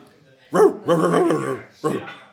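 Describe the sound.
A dog that rides in a motorcycle sidecar, sitting at a café, gives three growling, whining vocal bursts, the middle one longest, with quiet gaps between them.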